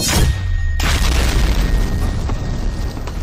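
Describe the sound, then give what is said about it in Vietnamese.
A loud explosion sound effect: one sharp, heavy blast that hits at the start, then a deep, dense rumble that rolls on and slowly settles over the next few seconds. “tiếng nổ mạnh động trời vang lên”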